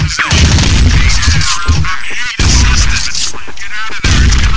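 Heavy gunfire from a ship's guns shooting at enemy aircraft: a loud, continuous barrage of booming reports, broken by a couple of sharp, brief gaps.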